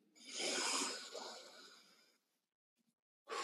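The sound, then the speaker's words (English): A deep breath taken during a guided EFT tapping and affirmation exercise: a long, airy, hissing inhale of about two seconds, then a short quiet pause before more breath noise starts. “And take a deep breath.”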